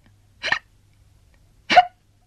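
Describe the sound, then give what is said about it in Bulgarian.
Two short hiccups, voiced as a tortoise hiccupping in a sunny meadow, come about a second apart. Each is a brief, breathy burst with a sharp catch, heard alone against near silence. “Аз съм костенурката и не въздишам, а хълцам.”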